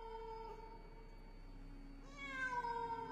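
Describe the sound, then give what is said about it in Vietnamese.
A single cat meow rises near the end, faint against a low, steady background hum. “Mẹ ơi, mẹ có nghe thấy gì không? Hình như là có tiếng con mèo. Con mèo nó lại theo mẹ ơi.”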